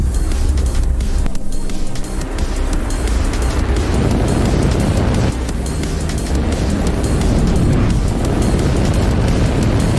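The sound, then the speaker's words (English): Thunderous roar of a SpaceX Falcon 9 rocket lifting off on a OneWeb satellite mission. A continuous, dense rumble with crackling texture stays loud and unbroken throughout. “Launch auto sequence has started. 6, 5, 4, 3, 2, 1. Go for launch.”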